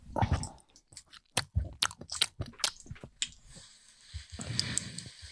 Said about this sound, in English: See, now she's eating it. The ASMR.